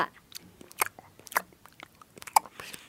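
Crunchy biting and chewing of a homemade snack: many short, crisp crackles in an uneven rhythm, fairly faint and with no talking.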